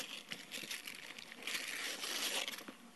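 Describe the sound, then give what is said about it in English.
Gift wrapping paper being ripped open by a small child at a Christmas Eve church gathering, a continuous crinkly, rustling tear of steady loudness lasting about three seconds, with no voices. “Here, ready? There you go, put your hand right there. Just rip it.”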